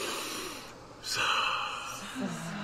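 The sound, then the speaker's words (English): A big, deep breath drawn in during a live guided meditation, heard as a soft breathy rush that swells partway through and holds before easing, over a constant background hiss. “let's first take a big, beautiful breath right into our heart centers”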